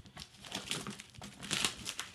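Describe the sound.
Crinkling and crumpling of packaging as a heavily taped package is unwrapped, a busy, irregular run of rustles and crackles with brighter bursts near the middle and end, with no voices.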